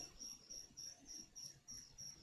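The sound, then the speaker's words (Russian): Crickets chirp faintly in a steady, regular run of many short, high-pitched pulses over a quiet low background. “Теперь из-за сверчков в записи тишина вырезаться не будет?”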